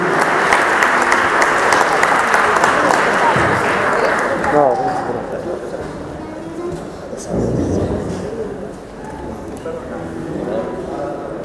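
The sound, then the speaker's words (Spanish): Audience applause at the opening event of a cultural gathering honoring a musician, dense sustained clapping at full volume that gradually thins, with a voice speaking over it in the second half. “Lo recibimos con un fuerte aplauso a Diego Armando Cucuza Castielo.”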